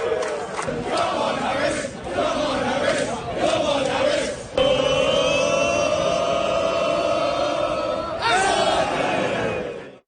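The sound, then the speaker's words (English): Dozens of England football fans chant football-style at a baseball game, cheering Atlanta Braves outfielder Michael Harris II. The loud crowd chant is sustained throughout, with a brief dip midway before the voices surge again. “That was the sound of dozens of England fans cheering on Atlanta Braves outfielder Michael Harris II.”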